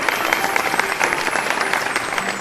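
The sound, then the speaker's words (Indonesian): Applause from a group of children in a classroom: steady, fairly loud clapping with rapid irregular claps that continues throughout, with no talk over it. “Berikan tepuk tangan untuk anak cerdas.”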